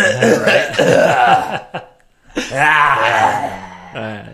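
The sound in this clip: Several people clear their throats together, making raspy, voiced rumbles in two long bursts with a short pause between them, then a shorter rasp at the end.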